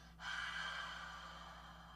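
A long open-mouthed exhale with the jaw dropped, like fogging a window: soft, breathy air that starts quickly, holds, then tapers off gently over about two seconds, quiet above a faint low hum.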